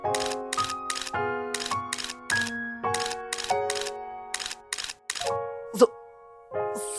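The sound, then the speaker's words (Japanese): A camera shutter clicks once, sharply, while photographing cherry blossoms, over gentle chiming music and regular light tapping. “なんて綺麗なのよしこの桜を、この素晴らしい風景を、写真に撮るぞ”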